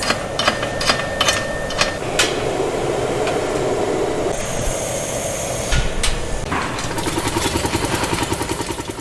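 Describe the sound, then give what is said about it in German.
Machines thumping and clattering in a glass factory, a loud, dense, continuous mechanical din with repeated hammer-like knocks and a steady rhythmic pulsing that grows more regular toward the end. “Und es ist natürlich auch sehr laut durch die Maschinen, die da wummern. Ich habe da mal ein paar Geräusche eingefangen.”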